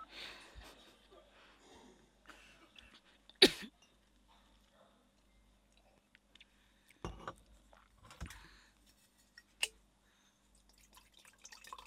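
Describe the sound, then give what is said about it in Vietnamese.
A few short, sharp throat-clearing and coughing bursts during a guided morning meditation, separated by long quiet stretches, with faint small noises in between. “Hãy làm sạch cổ họng của bạn.”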